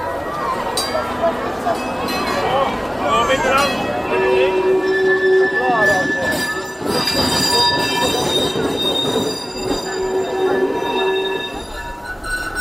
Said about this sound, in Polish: Drogi to wybudowali, ale tych szyn to chyba nie naoliwili do końca.